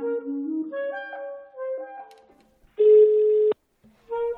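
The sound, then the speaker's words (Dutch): A telephone is dialed and rings: a few short tones of shifting pitch, then a longer buzzing ring tone, a pause, and the start of another ring. “Zou ik eens iemand bellen?”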